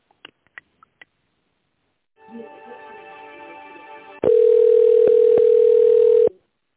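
Telephone line tones while a call is being transferred: a few soft clicks, then a quieter buzzy tone, then a loud, steady single-pitch tone holding for about two seconds before stopping abruptly.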